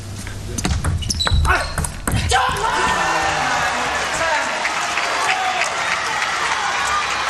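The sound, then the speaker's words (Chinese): Table tennis ball struck in a professional match, a serve met by a winning return, giving a few quick sharp clicks in the first two seconds, then a burst of crowd applause that carries on steadily to the end. “张本智和这个球是直接接发球得分了啊”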